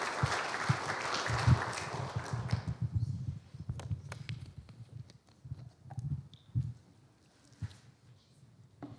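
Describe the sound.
Applause from a church audience welcoming a speaker to the front: dense clapping for about three seconds, then thinning into scattered individual claps and soft knocks.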